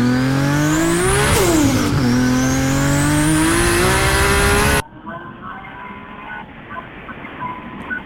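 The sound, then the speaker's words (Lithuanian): A car engine revs hard with a bright, rising harmonic whine. It dips sharply once, climbs again to a high pitch, then cuts off abruptly into quieter background noise. “Ar esate pasiruošęs paklausyti, na, automobilio garsą?”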